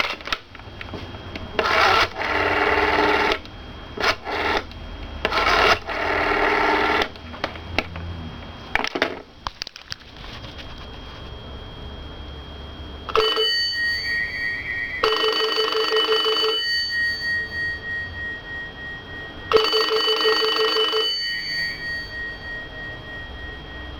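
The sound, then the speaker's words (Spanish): Rotary dial of a 1970s Citesa Heraldo desk telephone: several rasping, whirring bursts of dialing, then the phone's mechanical bell rings in three loud, rattling, pulsing bursts with short gaps between them. “El sonido del teléfono Heraldo, de rueda y campana, se convierte en un sonido casi identitario y familiar.”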